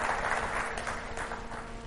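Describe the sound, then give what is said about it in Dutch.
A church audience applauding during a service: steady, dense clapping at a moderate level, with a faint constant hum underneath. “Ja, applaus voor Jezus.”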